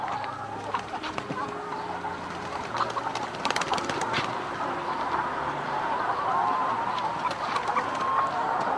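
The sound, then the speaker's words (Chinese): Chickens clucking and squawking as they are fed black soldier fly larvae, a busy, continuous chatter of many birds at moderate loudness. “所以我们现在喂它吃什么？ 黑水虻的幼虫。 好，喂鸡了。”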